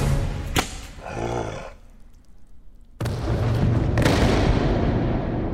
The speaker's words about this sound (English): She shot it right through the eye!